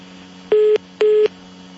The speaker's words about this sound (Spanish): Se me cortó la llamada, infortunadamente